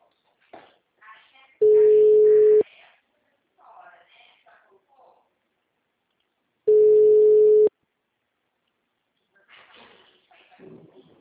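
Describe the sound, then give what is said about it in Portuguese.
Telephone busy tone after a dropped call: two long, steady, mid-pitched beeps several seconds apart, with faint voices murmuring in the gaps. “a ligação caiu.”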